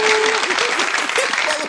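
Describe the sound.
Audience applause and cheering for a performer: thick, steady clapping with voices calling out over it, fading briefly at the very end.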